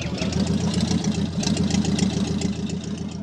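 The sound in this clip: Engine of an early motor car, a Benz motor wagon, running with a steady low chugging rumble, loud and unbroken throughout, with no voices.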